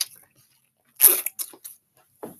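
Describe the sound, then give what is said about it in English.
Someone bites and chews a crisp apple, making a few sharp crunchy bursts. The loudest bite is followed by quicker, smaller chewing crunches, with near-silent gaps in between and no talk. “Yeah, this apple good as hell.”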